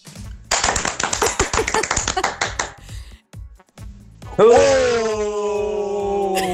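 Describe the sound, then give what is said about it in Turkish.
Applause from a sound-effect button sent in by a listener: a dense burst of clapping for about two seconds, then a brief quiet gap and a loud, sustained tonal sound that holds steady to the end. “Müthiş bir alkış butonu yollamış dinleyicim. Hemen dinliyoruz.”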